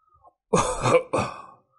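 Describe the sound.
An old man coughs violently in two harsh, loud bursts in quick succession, with no speech around them.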